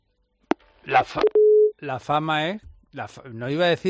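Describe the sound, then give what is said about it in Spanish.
Telephone busy tone after a dropped call: a click, then a single steady mid-pitched beep, with people talking before and after it. “se nos ha cortado la comunicación con el alcalde de Canillas de Aceituno, con Vicente Campos.”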